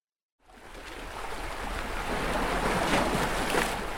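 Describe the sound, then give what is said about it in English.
Sea waves swell and subside at a swimming spot on the southern tip of Dublin Bay on a cold midwinter night. A steady, broad rushing wash fades in after a brief silence and slowly grows louder. “It's a cold night, midwinter. I'm at the 40 Foot, a well-known swimming spot on the southern tip of Dublin Bay. A full moon illuminates the inky black Irish Sea as it swells and subsides against”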